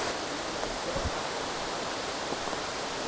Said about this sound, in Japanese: やっぱ下から見る滝は 迫力違うね